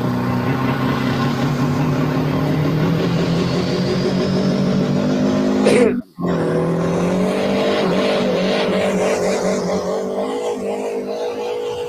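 Volkswagen 1.9 TDI diesel engine running, a loud, steady droning hum with layered harmonic tones that cuts out sharply for a moment midway, then carries on.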